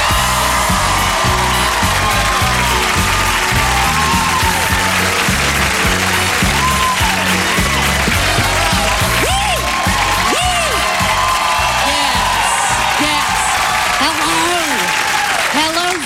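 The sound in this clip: A crowd at an Iowa campaign event applauds and cheers to welcome Senator Elizabeth Warren, with loud, continuous clapping and scattered whoops throughout and a voice rising over the din.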